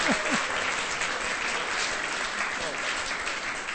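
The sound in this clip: Audience applause at a live show, a steady, dense wash of clapping that holds at an even loudness from start to finish.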